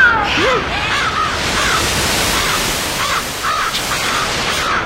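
A crow caws, giving several harsh, rasping calls over a steady, loud hiss.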